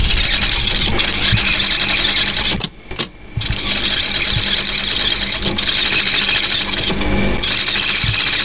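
An industrial sewing machine runs in a clothing workshop, giving a continuous mechanical whirr with a brief dip and pause near the middle before it resumes at the same steady level.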